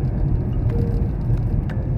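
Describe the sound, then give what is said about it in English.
A car being driven gives a steady low road-and-engine rumble, moderately loud and unchanging. Faint light clicks and rattles come and go over it. “I wasn't drinking and driving, but I'm driving and talking.”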